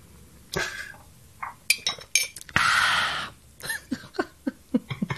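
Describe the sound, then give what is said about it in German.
Sipping from a glass: a few light glassy clinks, then a short slurping draw and a quick run of soft gulps and mouth sounds, with no talk. “Ich trinke einen Schluck, liebe Hörwesen.”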